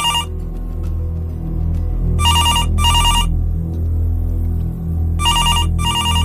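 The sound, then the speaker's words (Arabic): A reception desk telephone rings with a bright electronic trill in four short bursts, grouped as two double rings separated by a pause, over a steady low hum. “لقيت التليفون بتاع الاستقبال بيرن، مش عارف ليه.”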